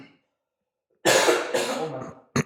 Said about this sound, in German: Der Husten ist immer noch nicht ganz weg.